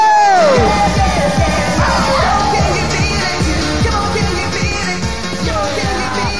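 A rave crowd at a 1993 event cheers, yells and whoops loudly and without a break, with a pounding dance beat running underneath.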